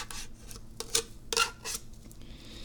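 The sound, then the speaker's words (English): A knife is run around underneath a taped edge, giving a series of short, scratchy rasping strokes at uneven intervals. It is fairly faint, with no talk. “We'll get some knife anyway. And we'll just run the knife around under here like this.”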